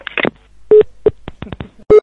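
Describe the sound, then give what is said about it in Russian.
Telephone keypad tones sound as a number is dialed to place a prank call. Three loud, steady beeps are interspersed with a series of sharp clicks of the keys being pressed. “Я твоей жене позвоню.”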